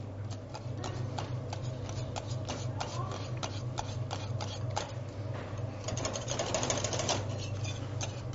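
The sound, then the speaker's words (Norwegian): A hand whisk beating mashed potatoes gives many rapid, steady scraping and ticking strokes in a continuous, fairly faint rhythm with no pauses. “Vi har en stor maskin på Grang som vi bruker hele tiden, men i dag skal jeg kun vise til deg, og derfor bruker jeg en visp. Bruker litt ekstra tid, men det gjør ingenting.”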